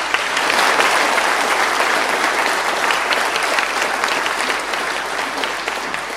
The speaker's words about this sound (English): And let's put our hands together and give them a good Northern Ireland, a good Ulster welcome as well.